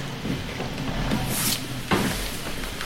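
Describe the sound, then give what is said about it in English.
A door opening, heard as a rough, noisy scraping with a couple of dull knocks, sustained for about three seconds with no voices. “And as you open that door”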